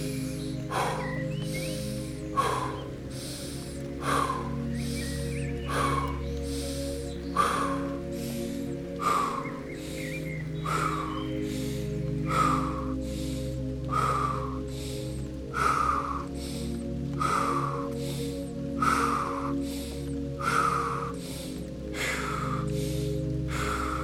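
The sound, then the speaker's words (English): Rhythmic breathing during a meditation exercise, in through the nose and out through the mouth, with many quick, regular breaths over a steady drone of sustained tones. “Inhale nose, exhale mouth for 30 seconds.”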